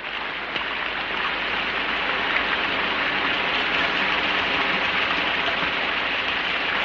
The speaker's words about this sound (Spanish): Es otro día, llueve intensamente sobre la ciudad.